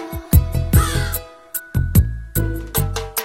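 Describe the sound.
Crow cawing: many harsh, loud caws come in a rapid series, with a brief pause partway through before the calling resumes.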